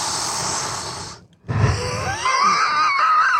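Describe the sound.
Wheezy breathing right at a microphone gives a raspy, airy rush. It stops for a brief moment, then returns with a thin, whistling tone running through it.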